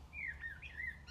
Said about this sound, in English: You can probably hear the chirping and peeping and the cuckoo just in the distance.